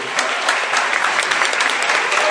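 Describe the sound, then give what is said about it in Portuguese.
An audience applauds couples at a worship service, with dense, loud, steady clapping from many hands that carries on without a break. “Então vocês podem aplaudir esses casais bonitos aqui.”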